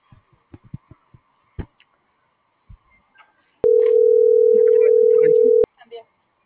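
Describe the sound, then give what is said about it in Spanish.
On an outgoing phone call, a single long steady ringback tone sounds as the line rings out unanswered, with faint brief voice sounds before and after. “ahorita la que le estoy marcando, ahorita no me ha entrado ni una. Pero sí, pero no contesta.”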